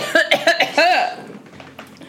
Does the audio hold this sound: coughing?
yes